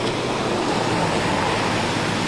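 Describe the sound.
Rain falls steadily at an outdoor spot in Marmaris, a dense, even hiss that continues unbroken without pauses.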